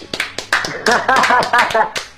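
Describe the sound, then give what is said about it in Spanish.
A few sharp hand claps from hosts in a radio studio, landing between and under lively talk, quick and uneven. “Bueno, aplausos en el Arturas.”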